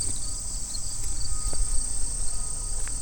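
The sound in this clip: Grasshoppers chirp on a summer day, a steady high-pitched insect trill that continues without break, with a few faint clicks and rustles beneath.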